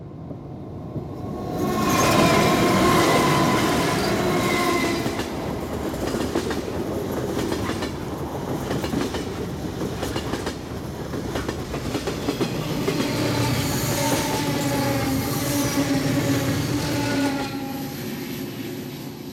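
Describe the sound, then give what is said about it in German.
A train passes on rails with a loud, steady rumble and a rhythmic clickety-clack of wheels that lasts throughout, with no voices. “Das ist mein Zug. Ich muss mich beeilen. Ich habe schon zu viele Züge versäumt.”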